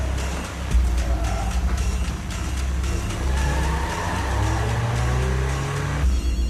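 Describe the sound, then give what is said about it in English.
A sedan's engine runs as the car quickly reverses out of a driveway at night, a loud, steady low rumble that holds throughout with slight surges in level. “quickly reverses out of the driveway.”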